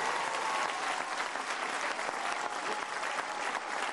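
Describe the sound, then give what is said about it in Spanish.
Audience applause at a Mexican government event: a thick, steady patter of many clapping hands sustained at an even level for the whole stretch. “Un aplauso a Zoe y a todo el equipo, porque son”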